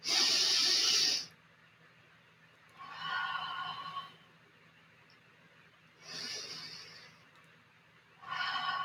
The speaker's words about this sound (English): even just me doing those two breaths here